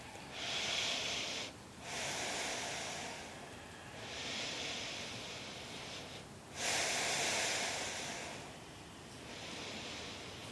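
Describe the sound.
Deep breathing during a yoga spinal exercise, with slow, airy inhales and exhales alternating in long phases of about two seconds each, loud and steady with no talking.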